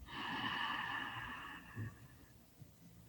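Slow, deep inhalation through the nose during a guided morning breathing exercise: a soft, airy draw of breath lasting about a second and a half, with a faint whistling tone that fades into quiet.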